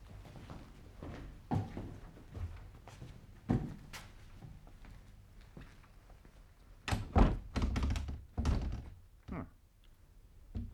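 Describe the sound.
Dull thunks and a clattering rattle of someone trying a locked door in a dark, cold old house, with a few scattered knocks early on and a denser burst of loud rattling near the end.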